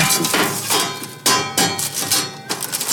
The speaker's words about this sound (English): A metal dish. Makes a nice sound.